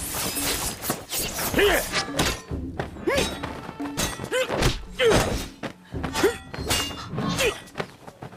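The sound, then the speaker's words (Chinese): Sledgehammer and sword clash in a fight, a dense run of heavy thuds, thunks and sharp whacks at an uneven rhythm, loud throughout with brief dips between blows. “晋中黑风侠抡着大锤在门口拉了个架势，向着乐月冲来。乐月扬起剑迎上去。”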